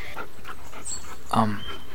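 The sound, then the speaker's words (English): A dog makes a brief, low vocal burst over a hissy, breathy background. A person's voice is likely heard as well. “Oh my god, your dog has three heads. Whoa. No, sir, sit. Be nice.”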